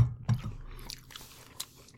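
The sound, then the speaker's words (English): Bites and chewing on a classic cheese-puff snack, a few crisp crunches that stand out, followed by softer, quieter chewing with no talk over it. “It does exactly what it says on the tin, and I can't be mad at it for it. No. It tastes like a Cheeto.”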